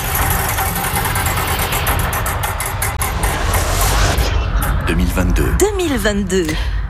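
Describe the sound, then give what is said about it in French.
A game wheel spins with rapid, steady ticking that gradually slows and spreads out, over a dense, busy backdrop. “J'envoie la roue du temps, vous allez dire stop, elle s'arrêtera sur une année”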